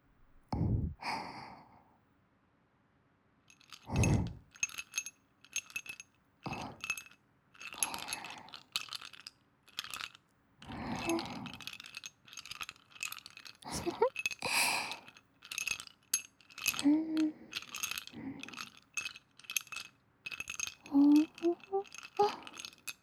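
Ice cubes clink and rattle in a series of short, bright knocks and ticks at irregular intervals, some with a brief ringing tone, in a quiet, close setting.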